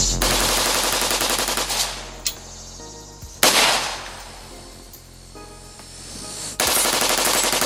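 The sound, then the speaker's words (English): Rapid automatic-style gunfire from a rifle fitted with a bump stock. A few loud, dense bursts of shots are separated by quieter stretches where the echoes fade. “650 rounds per minute. That's a steady stream of bullets flying, whereas a bump stock, you're going to have this right.”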